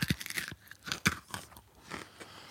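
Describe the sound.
Hard candy drop being sucked and crunched in the mouth: a few sharp, crisp crunches break through wet sucking and clicking sounds, fairly close and clear with no talk.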